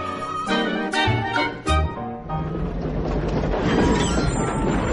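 A train sound effect opens with brief harmonic, horn-like blasts and sharp clanks over the first two seconds. A loud, steady rushing rumble of rolling rail wagons follows and continues to the end, with no voices.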